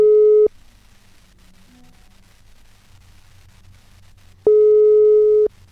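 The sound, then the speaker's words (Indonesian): A telephone ringback tone sounds while a call is placed to reach a guest: two steady, mid-pitched tone bursts separated by a long pause filled with faint line static. “Dan ini aku lagi coba terhubung sama Kak Kofifanya”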